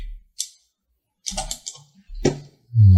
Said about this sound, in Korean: 자, T키를 눌러서 자, 한번 움직여볼까요?